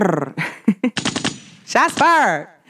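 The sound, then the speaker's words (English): A gunshot sound effect: a few sharp cracks, then a rapid machine-gun-like burst of shots, mixed with tonal, swooping electronic sounds. “Shots fired.”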